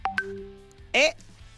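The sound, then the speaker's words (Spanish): Electronic telephone tones signal an incoming call: two short, bright beeps at the start, then a steady lower tone, with a voice speaking afterward. “Ah, es que está entrando una llamada telefónica.”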